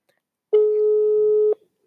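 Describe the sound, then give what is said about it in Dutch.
A phone call ringing out: a single steady mid-pitched tone lasts about one second, then stops, with nothing else heard around it. “Laten we even maar gaan lekker bellen.”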